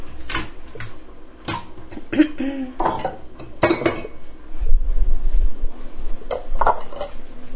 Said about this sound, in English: And I should get out some bowls for our pasta.